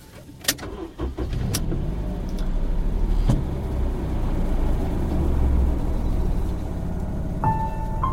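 A car is driving, its engine giving off a steady low hum. A few sharp clicks come early, and a brief electronic tone sounds near the end.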